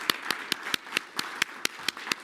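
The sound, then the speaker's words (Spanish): Hand claps closing a panel session at a conference: a steady run of sharp, evenly spaced claps, fairly faint, with no talk over them. “Vamos a dar un aplauso.”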